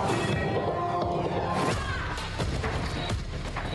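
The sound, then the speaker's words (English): Heavy thumps, whacks and swishing whooshes from movie trailer effects of a woman hitting a man hard, with several forceful hits layered into a dense, loud soundtrack. “The noises seem like she's hitting him particularly hard.”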